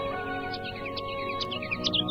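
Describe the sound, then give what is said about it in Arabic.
A songbird sings in short, high chirps and tweets that repeat in quick runs over a steady, faint tonal background. “أهلا يا عصفور يلي بتغني”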